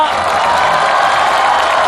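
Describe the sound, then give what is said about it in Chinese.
A crowd applauds and cheers at a New Year show. The roar is loud and continuous, blending clapping with cheering voices at a constant level. “我觉得好像掌声比我那个要热烈一点，是不是？”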